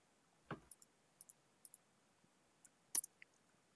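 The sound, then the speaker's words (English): Keyboard typing during a tabletop role-playing game session: a series of soft, irregular clicks and taps spread across a few seconds, faint and with no talking. “Takes me a second to type.”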